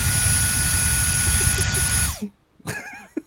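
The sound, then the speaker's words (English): Loud, harsh roar of a vacuum cleaner on turbo setting sucking up freshly cut hair. The steady whine stops abruptly, and a person then speaks briefly. “I love this thing, man. I cut my hair and it just sucks everything up, man. This is probably the most manly vacuum.”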